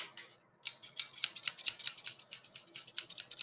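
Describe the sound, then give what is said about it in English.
Scissors cut through pieces of plastic in many quick, crisp snips, steady and rhythmic after a short pause, with no voices. “Well, you keep cutting there. This is quite a moment.”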